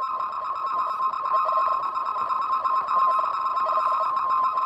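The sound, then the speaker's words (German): A slowed-down EEG brain recording gives a steady, buzzing electronic tone that flutters with faint, uneven pulses like a Morse signal. It holds at an even level throughout, with no talk. “Tatsächlich ist es eine Art von Morse-Signal. Es ist das Signal, in dem die Wahrnehmungen und Gedanken des Menschen verschlüsselt sind, dessen Gehirn wir das Enzephalogramm abgenommen haben.”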